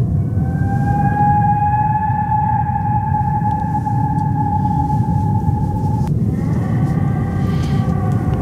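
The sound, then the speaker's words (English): Whale calls: long, steady tonal moans with clear upper harmonics, sustained over a dense low rumble, shifting abruptly to a new set of tones near the end. “it's always good to end a show on some whale sounds, isn't it?”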